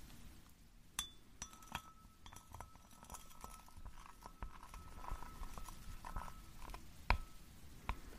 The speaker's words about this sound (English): Gently mix it all up now. Just stir it all together.